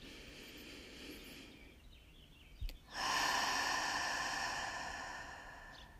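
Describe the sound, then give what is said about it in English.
A deep breath during a breathwork meditation: a brief sharp intake through the nose, then a long airy exhale through the mouth that swells and slowly fades, over a soft steady background drone. “Take a deep breath in through the nose and out the mouth.”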